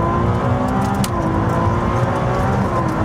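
Loud engine roar of a Ferrari 296 Speciale sports car on a test drive, a sustained, dense drone with layered engine harmonics running throughout, no voices heard.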